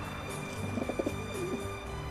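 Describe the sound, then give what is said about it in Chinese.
Soft cooing from a grey pigeon that lives in a big letter on a rooftop billboard: a few faint, low, throaty murmurs close together near the middle, over a steady quiet hiss. “在广告牌的大写字母 B 里住着一只鸽子。哦，对了，它是一只灰色的鸽子，名字叫西德”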